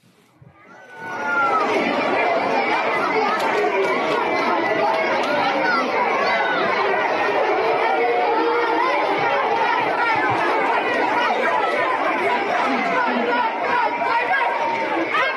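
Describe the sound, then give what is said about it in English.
Children at a school in Austin, Texas, chant together in a loud crowd, a dense and continuous mass of high, overlapping voices that holds steady without a break after a quick rise at the start. “Hear that? They're chanting pride, pride, pride, pride, pride.”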